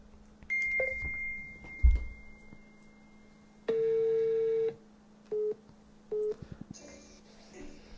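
Telephone call signal tones while calling a television line: a thin steady tone, then one long beep followed by two short beeps, with faint clicks after and quiet noise underneath.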